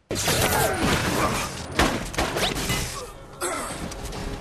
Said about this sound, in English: That is a real weapon. That's an actual staff weapon.